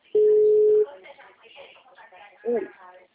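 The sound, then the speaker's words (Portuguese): A ringback tone sounds while a phone call is being placed: one steady, mid-pitched tone of under a second, followed by people talking. “Aí eu fico ligando pra ver.”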